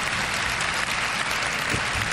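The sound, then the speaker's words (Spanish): A crowd applauds a political speech about a national emergency at the southern border. The clapping is dense and sustained and stays strong from start to finish. “Y la gente le aplaude. No le aplaude Biden ni Kamala.”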